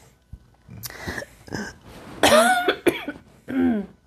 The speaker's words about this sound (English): Excuse me, I choked on myself.